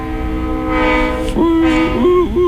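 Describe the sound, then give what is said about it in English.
Passing train with a loud, multi-tone horn that blares through the second half over a steady, heavy rolling rumble. “There's a train. Yeah, that's just the train.”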